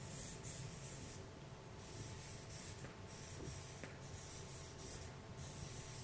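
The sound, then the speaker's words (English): A word is written down by hand, faint scratchy strokes in several short bursts with brief pauses between them, and no talking. “I'm going to write it down here. It's the word parash.”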